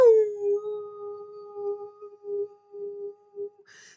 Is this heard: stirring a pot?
no